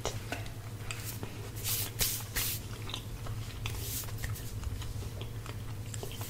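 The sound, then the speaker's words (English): Chewing on fries with a cheeseburger: a few crisp, crunchy bites and soft mouth noises over a steady low hum, with no talk. “Tasting right now. I am tasting some fries. Yes, with a cheeseburger.”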